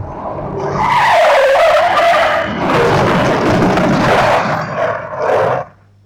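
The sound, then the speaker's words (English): A car brakes hard at red lights, its tires skidding in a loud, harsh screech that lasts about five seconds before cutting off abruptly into quiet. “Hey! Brake! The lights are red! Brake!”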